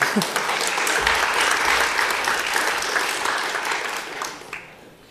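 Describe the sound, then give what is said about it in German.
Applause from an audience at the start of a show: loud, dense, sustained clapping that holds steady for several seconds before fading out toward the end. “Dann vielleicht noch mal einen Applaus zum Anfang.”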